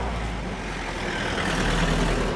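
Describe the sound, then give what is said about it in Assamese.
Several vehicles arriving, a dense, steady engine rumble with broad road noise that grows slightly louder toward the end. “ৰ'বাচোন ৰ'বা, কেইখনমান গাড়ী আহিছে দেখোন।”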